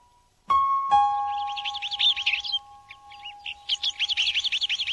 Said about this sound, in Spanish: Un nido de papamoscas. Quería protegerlos.